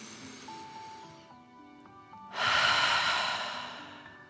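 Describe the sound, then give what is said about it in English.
Slow, deep breathing like a dragon during a guided relaxation. A quieter breath in is followed by a loud, drawn-out breath out that slowly fades, with soft sustained musical tones underneath. “Let them relax into the warm sand and breathe like a dragon in and out.”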